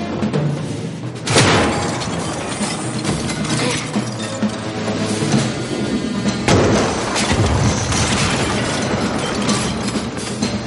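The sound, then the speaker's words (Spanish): Giant chess pieces smash into each other with heavy crashes over a dense, continuous grinding rumble. Two sharp, loud impacts stand out within the sustained din, which stays loud throughout. “Las figuras se destrozan unas a otras. Caen peones, alfiles, caballos.”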